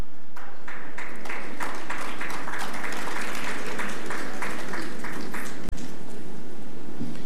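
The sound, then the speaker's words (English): Loud, sustained applause from an audience at a Caribbean arts and culture awards ceremony, dense steady clapping with a slightly pulsing texture that holds at full strength throughout. “Please put your hands together for Dr. Cleveland Sam with his assistance.”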